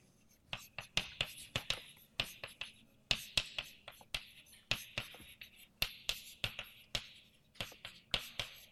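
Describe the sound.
Handwriting during a chemistry lecture, as someone writes out a rate equation: many quick, faint, scratchy strokes in irregular bursts, with no talk.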